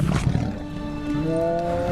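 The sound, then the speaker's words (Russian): Rajah the tiger gives a rough, low roar at the start of a scene in the animated film Aladdin, followed by sustained tonal music. “Он наклоняется. Раджа. И оказывается лицом к лицу с тигром. Тигр лижет ему нос.”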